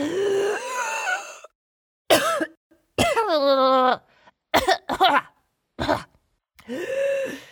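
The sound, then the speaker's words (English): A big breath in is followed by coughing and groaning splutters from someone who has breathed in a fly while getting ready to blow a trumpet. The voiced coughs come in several bursts separated by short pauses. “I think I just breathed in a fly.”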